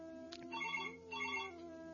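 A telephone rings faintly for an incoming call to a call-in program, two short warbling ring bursts over a steady low hum.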